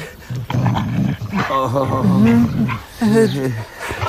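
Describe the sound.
Dog whimpering in a fenced, overgrown area: a few drawn-out whines with wavering, bending pitch, mixed with rougher low growly sounds, fairly loud and accompanied by voices.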